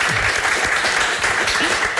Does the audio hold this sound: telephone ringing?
no

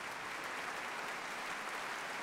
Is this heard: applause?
yes

